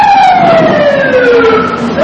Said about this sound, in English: Apparently, sirens, jackhammers,